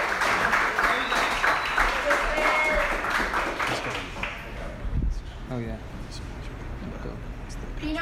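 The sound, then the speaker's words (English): Audience applause at a live event: dense, loud clapping for about four seconds that then fades into a quieter crowd murmur with scattered claps. “And everyone, give it up for Steph”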